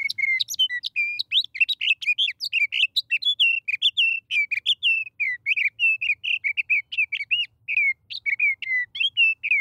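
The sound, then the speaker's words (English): A sage thrasher sings from atop a clump of sagebrush: a rapid, continuous run of high, varied warbling notes that rush forth with no pauses longer than a beat, bright and clear with no voices. “When a sage thrasher, perched atop a clump of sagebrush, tips its head back to sing, the notes rush forth.”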